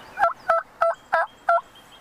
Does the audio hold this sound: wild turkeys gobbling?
yes